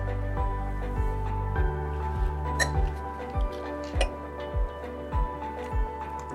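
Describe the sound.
Rhythmic clinks of a utensil stirring a thick potato-flour paste after a packet of digestive enzyme goes in, many evenly spaced taps over a steady low hum.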